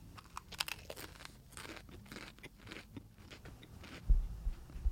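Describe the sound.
Someone biting into and chewing crunchy food: a run of quiet crackling chews, with a louder crunchy bite toward the end.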